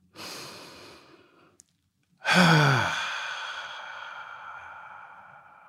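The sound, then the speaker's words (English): Deep breathing sounds: two breaths, the second a loud, long sighing exhale with a brief voiced edge at its start that slowly fades away. “let's take a deep breath.”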